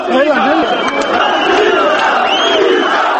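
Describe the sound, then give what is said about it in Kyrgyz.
Crowd outside the Georgian parliament during the Rose Revolution chanting a leader's name, a loud mass of shouting voices that stays strong for about three seconds. “Сырттагы эл Миша, Миша деп кыйкырып турду.”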